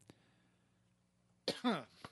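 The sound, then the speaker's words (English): A person coughs in a few short, harsh bursts after a long quiet stretch. The coughs are loud and rough, with a throaty, voiced edge, and no talk can be heard. “Ugh, I don't know why I'm coughing.”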